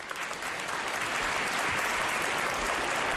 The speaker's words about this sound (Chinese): 掌声鼓励，掌声啊，掌声鼓励！